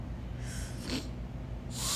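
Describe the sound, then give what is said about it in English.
A person sniffles a few times, each a short, breathy burst of nasal air, fairly faint over a low steady hum. “why are we sniffling? This is like bad.”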